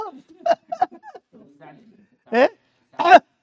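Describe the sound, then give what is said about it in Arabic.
A person coughs on request, giving a few short, rough bursts followed by two louder, raspy coughs near the end, with brief pauses of silence between them. “ايه اعمل كده سعلة، اسعل اسعل يا حبيبي الله يكرمك.”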